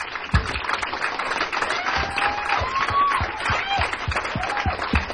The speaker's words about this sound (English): Ladies and gentlemen, can we please give a warm round of applause for Mr. Nelson Santana?